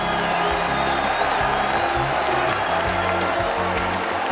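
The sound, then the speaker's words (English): At a heavyweight boxing match, the arena crowd applauds and cheers for both fighters before the scorecards are read. The sustained noise of clapping and whoops runs throughout, over low, steady tones. “Ladies and gentlemen, before we go to the scorecards, a round of applause for these two heavyweight warriors.”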